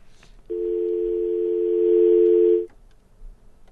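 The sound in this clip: Telephone line tone as a listener's call is taken on a call-in talk program: a single steady buzzing tone of about two seconds starts abruptly, holds level, then cuts off, with faint background before and after.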